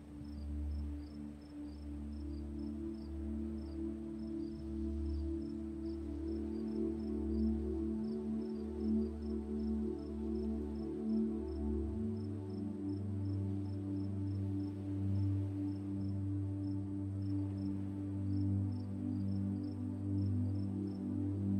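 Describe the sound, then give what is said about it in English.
Crickets chirp steadily at sunrise in a still place, a fine, high, rhythmic pulsing that runs through the whole clip over a sustained low musical drone. “Listen to the crickets chirp and welcome the serenity that comes to you.”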